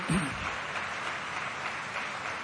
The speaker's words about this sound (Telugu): No doubt about it, you have to clap it.